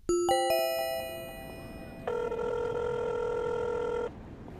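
A telephone rings: three quick rising chime notes, then a steady electronic ringing tone that holds for about two seconds before stopping, fairly faint against a low hiss.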